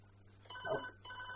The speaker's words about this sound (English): I was sent back. Phone going. Hello there.